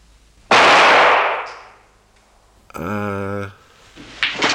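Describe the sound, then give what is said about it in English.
A gunshot in a film: one loud, sharp blast with a long, hissing decay, followed after a pause by a brief, strongly voiced sound. “Oh, he's just shot himself.”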